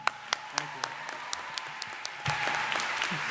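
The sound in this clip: Applause from an audience welcoming a speaker to a lecture: a few scattered, crisp claps at first, then the whole crowd joins in and the clapping swells into a dense, steady roar that continues to the end.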